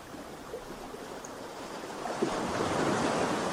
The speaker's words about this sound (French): Le bruit de la mer vous berce